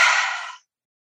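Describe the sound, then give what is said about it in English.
An audible exhale with sound, released after a held breath in a guided breathing exercise. A single breathy, airy exhale lasts about half a second, fades out, and ends in silence. “Inhale for 5. Hold at the top. Exhale with sound”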